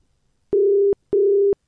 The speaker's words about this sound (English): All right, it's ringing.